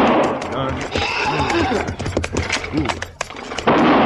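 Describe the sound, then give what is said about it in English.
Several sharp rifle shots crack irregularly during a chase after a wagon pulled by spooked horses, mixed with loud, urgent voices. “Stop firing that rifle.”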